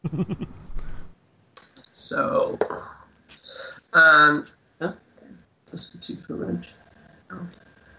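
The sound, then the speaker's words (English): Dice clatter for a damage roll in a tabletop role-playing game after a great axe swing, light clicking beneath lively talk from several players. “Roll your damage. But one of those dice was a 1.”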